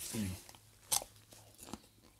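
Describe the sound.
A crisp bite into a freshly harvested mini snack cucumber gives one sharp crunch and then a softer second crunch with faint chewing. A brief, low voiced murmur comes just before.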